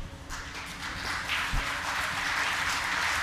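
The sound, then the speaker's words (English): Audience applause greeting a performer at a theater show: a dense, even wash of many hands clapping that holds steady throughout with no pauses. “Please, no standing ovations. I'm basically very modest.”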